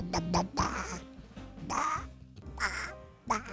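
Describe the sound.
A human voice imitating a duck with a rapid series of nasal, raspy quacks of varying length, loud and alone with no other talk.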